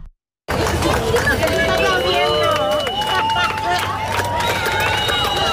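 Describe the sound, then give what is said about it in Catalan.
A crowd of hundreds watching a solar eclipse on Barceloneta beach in Barcelona: a dense, continuous babble of many voices with scattered higher calls. It starts after a brief silence and stays at a steady level. “I tot i que no era l'espai més idoni, centenars de persones, ho sentim de fons, han viscut el gran fenomen astronòmic des de la platja de la Barceloneta de Barcelona.”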